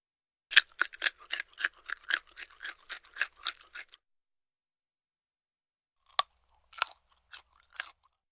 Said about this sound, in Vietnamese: thịt xông khói đã được nướng giòn tan, dùng để diễn tả thứ gì đó không còn nước, nhẹ và giòn khi cắn.